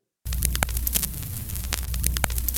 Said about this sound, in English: Here's an example of static that, if you're old enough to remember, you might have heard on what we used to call a record player, something that played old vinyl albums.